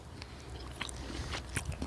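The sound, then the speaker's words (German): Jägerknacker sausage bitten and chewed outdoors on a walk, with snappy bites and steady moist munching repeating throughout. “Und dabei essen wir einen Jägerknacker.”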